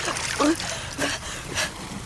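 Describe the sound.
Seawater splashing gently around swimmers, a continuous soft trickling wash with a few slightly louder swells, heard under people talking.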